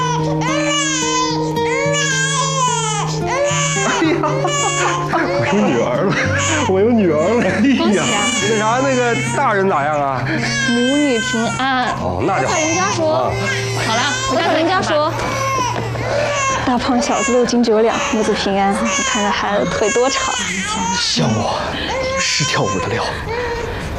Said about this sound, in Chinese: 哎呀，生了， 是个女孩，五斤八两。